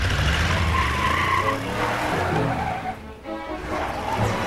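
A pickup truck turns around on a dirt road, its engine and tires making a loud, rough rush with skidding tire noise. The sound dips briefly near the end and then swells again.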